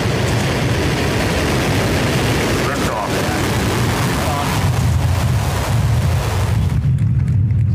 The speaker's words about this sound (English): the first rocket we designed was the Falcon 1, which was that guy right there